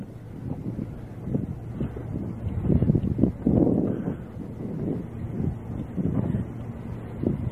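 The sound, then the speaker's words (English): Wind blows across the microphone outdoors, producing a low, rumbling buffet that swells and eases in gusts for several seconds with no voices. “I'm sure the wind is going to fill this tape as much as my voice.”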